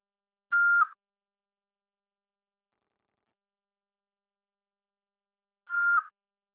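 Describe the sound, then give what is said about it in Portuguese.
Two short, mid-high electronic beeps of a voicemail signal on a phone call, each a steady tone lasting a fraction of a second, separated by about five seconds of silence. “Sua chamada está sendo encaminhada para a caixa de mensagens e estará sujeita a cobranças após o sinal. Após o sinal, fale o seu nome e deixe seu recado.”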